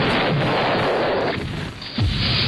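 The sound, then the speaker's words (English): A bomb explosion: a loud, dense roaring blast dips briefly, then a second heavy boom rumbles in. “God, I love that last bomb that comes in. It just kills them off.”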